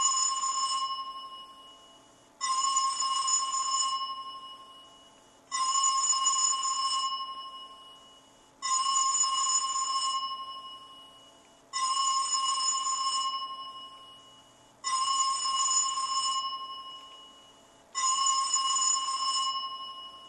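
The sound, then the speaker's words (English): A recorded telephone ringtone played back: seven bright electronic trilling rings in a steady rhythm, each lasting about two seconds, starting loud and fading slightly before the next one begins. “You just need to be about 25 to 30 seconds so it rings long enough to get you to voicemail. So let's play this.”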